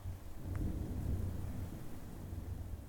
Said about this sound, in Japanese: 雨か